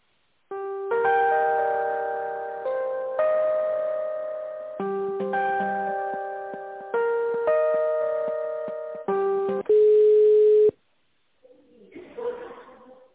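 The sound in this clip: Electronic melodic tones on a phone line while a call is being transferred: a run of sustained synthesized notes in repeating phrases, then a steady loud beep, a short silence and a brief voice.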